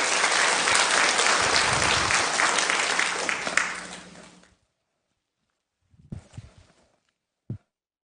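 A church audience applauds to welcome a preacher, a dense, steady clatter of many hands that fades out after about four seconds, followed by silence and a few brief soft knocks.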